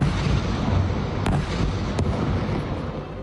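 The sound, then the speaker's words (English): Explosion noise from an Israeli strike in southern Lebanon: a loud, continuous rumbling roar throughout, broken by two sharp cracks about a second apart. “And more Israeli attacks on southern Lebanon. The health ministry says more than 3,000 people have been killed across the country since early March. This strike came after a forced displacement order”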